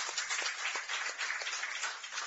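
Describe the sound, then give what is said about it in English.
Audience applause, a steady wash of many hands clapping that stays fairly faint and even throughout, with no voices over it. “Round of applause for that.”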